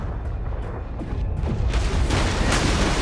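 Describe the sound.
A destroyer's naval guns firing and a shell striking a submarine: dull booms within a dense, roaring wash of noise that swells louder partway through.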